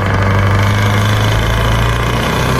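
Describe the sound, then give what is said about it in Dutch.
Steady engine rumble from a motor vehicle, a loud, continuous low hum with a faint vibrating texture that holds level throughout, with no talk. “Even gas geven.”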